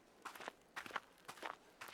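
Quiet footsteps of people walking side by side along a road fall in an even rhythm, several soft steps within a couple of seconds.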